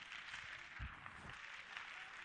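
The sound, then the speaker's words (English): Congregation clapping hands during praise and worship, a faint, steady wash of many hands with a couple of soft low thumps and no voices over it. “Let's clap our hands to the Lord Jesus Christ.”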